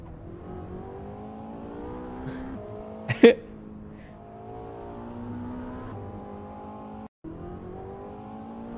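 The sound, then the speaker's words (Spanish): Engine of an all-wheel-drive McLaren in a racing video game hums at a steady, buzzing drone. It rises in pitch and drops back a few times, with one brief sharp click partway through. “el McLaren ese es como tracción a las 4 y va planchadísimo.”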